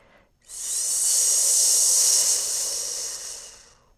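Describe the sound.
A single deep, drawn-out breath during a guided breathing exercise, rising into a loud, steady airy hiss that holds for about three seconds before easing off, with no talking.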